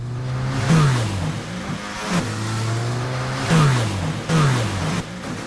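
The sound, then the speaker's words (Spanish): Jet ski engine revving, a steady mid-pitched drone broken by a few short surges where the note climbs and grows louder before settling back, with no voices. “Y este el sonido de una moto de agua.”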